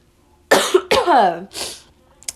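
Harsh coughing and throat clearing from a man trying to clear something stuck in his throat. A few loud, rough bursts come in quick succession, with a partly voiced, gravelly middle stretch, then a short faint catch at the end. No speech.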